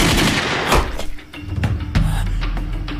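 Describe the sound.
Gunfire from a firefight cracks out in several sharp shots at irregular intervals, with a strong burst early on and scattered reports over a low rumbling background.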